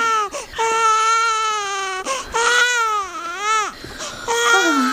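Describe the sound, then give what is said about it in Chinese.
A baby cries loudly in long, repeated wails broken by short catches of breath. The pitch of the cries wavers and bends. “小朵，把孩子都哭成这样了，你也不管一管？”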